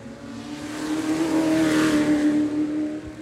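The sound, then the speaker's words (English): Ford GT40 race car at a supercar event, its engine producing a steady, throaty drone that swells to a peak partway through and then eases slightly while the car sweeps past. “Here comes that GT40 again.”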